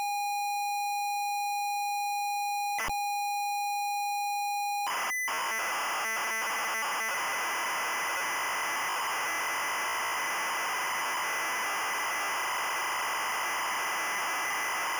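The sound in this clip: Video game data loading from an audio recording: a steady, high whistling tone holds for about five seconds with one sharp click, then breaks into harsh, buzzing, warbling data noise that continues to the end.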